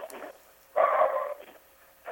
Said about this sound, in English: the dog's decided she wants to get involved too